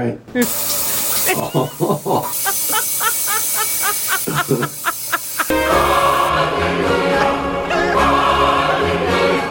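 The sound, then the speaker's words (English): Water sprays from a bidet-style toilet seat attachment, a steady broad hiss that takes over for the final few seconds after a stretch of voiced sounds. “You got a bidet. Wow. And let's hear how happy he is about it.”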